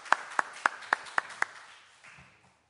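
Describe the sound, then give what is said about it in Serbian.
Applause at an award ceremony for a composition competition: six sharp, faint hand claps spaced evenly, followed by a quiet, fading tail. “Maje Fabris Đurović, koju molim da pozdravite jednim aplauzom koja je ovde sa nama.”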